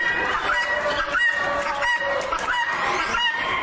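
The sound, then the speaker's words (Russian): A hen clucks in a steady stream of loud, raspy, harmonic calls that run on without pause, the voice of one of several exotic chicken breeds. “Вот, например, курица, которая подает голос так.”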